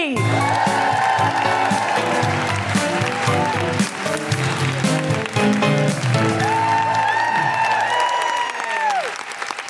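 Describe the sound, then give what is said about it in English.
An audience at a live comedy show claps and whoops loudly for a comedian as she is introduced. Dense applause runs throughout, with high cheers and whoops rising over it, and it thins slightly near the end. “Put your hands together and make incredible woohooing noises for the wonderful Celya AB!”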